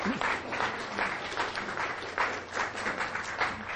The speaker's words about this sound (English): Let's put our hands together.